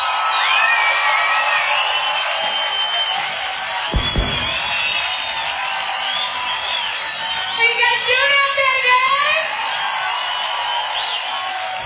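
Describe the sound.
Audience applause and cheering at a live concert in Paradiso: a dense, steady roar of clapping and crowd noise that runs throughout, with whoops and shouts rising over it in the later part.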